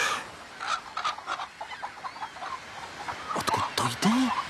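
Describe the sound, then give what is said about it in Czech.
Hens cluck from a bush, with a rooster among them: a run of soft, repeated clucks, then louder, sharper calls near the end. “Podívejte, no to jsou normální slepice. Normální slepice. Stejné jako ty americké. A dokonce i kohout.”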